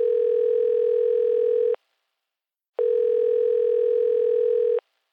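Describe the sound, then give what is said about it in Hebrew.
Telephone dial tone heard while a call is being dialed: two long, steady, even-pitched tones, each just under two seconds, separated by a short silence, with no voices. “מחייג.”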